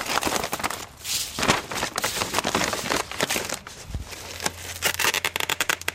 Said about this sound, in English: That is the sound of mighty hands tying some twine.